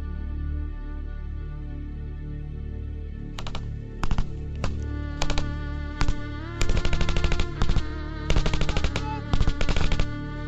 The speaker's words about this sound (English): Minutes on, and the gunfight continues. Come on, go, let's go, let's go! Keep firing, lads!